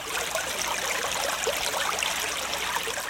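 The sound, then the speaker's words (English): Water pours and trickles in a steady, continuous stream, a bright splashing hiss with no pauses and no voices. “Water. That's right, ladies and gentlemen. H2O. Doesn't that sound refreshing?”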